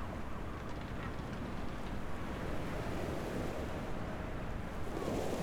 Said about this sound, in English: The waves are lapping gently this morning, and they graciously brush against the side of the rocks